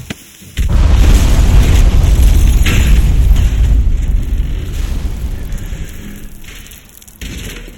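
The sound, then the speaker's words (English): A pipe bomb explodes in a video game: one loud, heavy boom breaks in suddenly, then a long rumbling roar slowly fades over several seconds. “Pipe bomb! Move it!”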